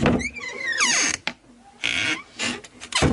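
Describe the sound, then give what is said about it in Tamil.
A door being opened, giving creaking, gliding tones mixed with a few short scraping and clattering bursts. “சரி, கதவு திறப்போம்.”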